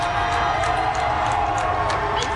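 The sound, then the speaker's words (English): Fans lining the outside of Toronto's Delta Hotel cheer and whoop as Team Portugal's bus passes under police escort, a loud, unbroken roar of crowd voices with scattered high shouts. “not before one final send-off from fans who lined the outside of the Delta Hotel, cheering and chanting as the team bus went by.”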